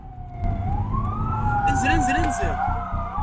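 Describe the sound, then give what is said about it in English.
An ambulance siren wails as the vehicle races through city streets at night during the war in Gaza, a loud sweeping tone rising and falling over a steady low engine rumble and road noise. “An ambulance racing through city streets at night.”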